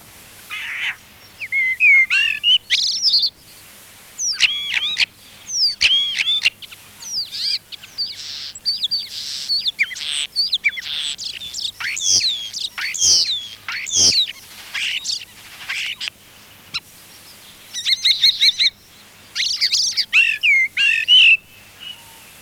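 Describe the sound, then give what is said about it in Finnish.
Common starling song: a long, varied run of whistles, clicks, rattles and squeaky trills, bright and fairly loud, broken by many short pauses, with no talk. “Kottarainen.”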